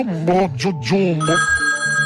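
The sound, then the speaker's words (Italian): A telephone rings with a steady, bright electronic tone and even harmonics. A voice is heard just before it. “Scusi, mi stanno chiamando al telefono.”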